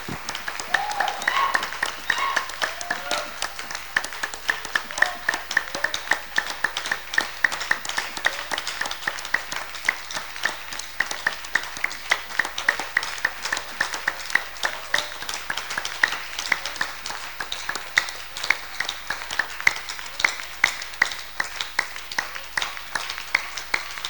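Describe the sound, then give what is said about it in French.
A church audience claps for the Lord in a worship service, a long loud run of steady rhythmic clapping that keeps going throughout, with voices mixed in underneath. “29 days already. Let's clap for the Lord.”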